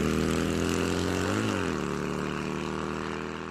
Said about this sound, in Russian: Мотоцикл взревел и понесся по пыльной дороге.